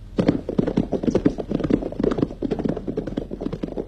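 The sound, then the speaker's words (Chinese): Horses' hooves clip-clop as military officers on horseback gallop to meet each other. The sound is a dense, continuous run of many sharp, hollow taps in a quick, uneven rhythm that lasts through the whole clip. “罗中环和参谋警卫员骑马赶往八纵队，八纵队司令员也骑马迎来。”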